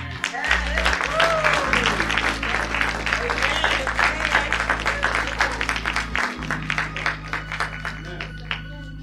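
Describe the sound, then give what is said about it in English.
Church audience applauding, a dense, steady wash of hand clapping that carries on for the full stretch without a break, with a sustained low tone underneath. “I want you to put your hands together”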